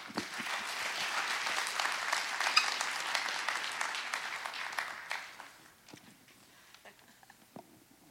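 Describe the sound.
An audience applauds to welcome a speaker who will share her faith story. Steady, full clapping lasts about five seconds, then thins out to a few scattered claps.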